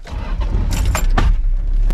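A car starts off on a test drive with a low, steady engine rumble throughout, while a few bright jingling clinks, like keys, sound briefly in the middle.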